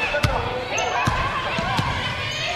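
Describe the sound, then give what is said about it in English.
Quick, sharp ball bounces from a sophomore's crossover dribble in a women's basketball game. A few thumps sound over a steady wash of crowd noise. “Crossover dribble. The sophomore loses it. Gets it back.”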